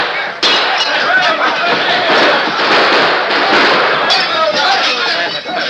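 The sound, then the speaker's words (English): Gunshots ring out in a Lone Ranger radio drama shootout, sharp loud cracks bursting through a dense, continuous clamor with voices. “But before they could bring their guns to bear, the Lone Ranger shot out the lights.”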